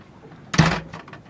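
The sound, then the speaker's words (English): A door is pushed shut with a single loud, sharp thud that has a short resonant ring, followed by brief quiet. “Get out. I'm sorry. And shut the door.”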